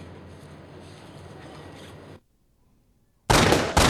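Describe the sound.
A sudden loud burst of gunfire, the shooting of an informant, follows a stretch of steady noise and a brief silence, then stops abruptly.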